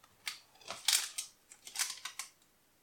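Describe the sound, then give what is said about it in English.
Sharp knife cutting through a brownie into portions: many crisp crackling crunches and small clicks in irregular bursts, fairly faint against near silence. “we can cut the brownie into the portion sizes that we want to make.”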